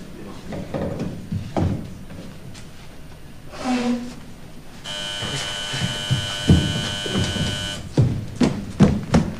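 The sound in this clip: A telephone rings with one continuous, buzzing, bell-like tone lasting about three seconds. Scattered knocks and handling noises come before and after the ring.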